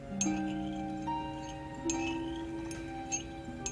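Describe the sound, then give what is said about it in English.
A spoon stirs in a cup, giving a few faint, sparse clinks over a low, steady tonal background. “But she's still with that stirring, y'all. She's stirring the cup.”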